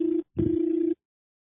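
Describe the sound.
Ringback tone on an outgoing phone call to a finance company: a steady low hum that cuts off, a short gap, then a longer burst of the same tone before silence.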